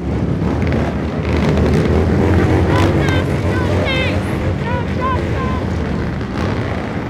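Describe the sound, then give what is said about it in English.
Loud roar of motorcycle engines revving with throttles wide open, bikes lined up along a sidewalk as street protesters pass; a dense, sustained din with shrill whistle-like tones and chanting voices cutting through it. “position their bike's exhaust valves as close to the sidewalk as possible, in preparation. When protesters arrive, the throttles open up.”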